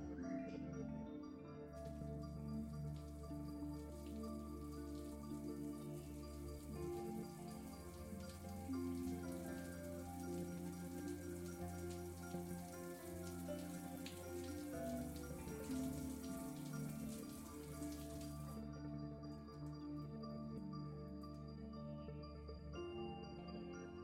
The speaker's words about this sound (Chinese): 老公，别闹了，乖乖洗澡。 好，既然老婆都这么说了，那我们就先洗澡吧。